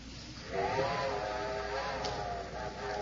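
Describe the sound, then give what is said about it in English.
A steam train whistle sounds a sustained, steady chord of several tones. It starts after a brief moment and holds to the end, fairly faint over a background hiss. “I'm afraid that's my train, Throckmorton. Yeah, that's right. Yeah, whistling from Moore's Junction.”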